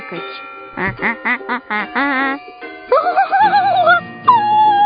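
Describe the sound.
A voice imitates the quacking of a plush toy goose, first a quick string of short nasal quacks, then longer, wavering, drawn-out quack calls, loud and alone.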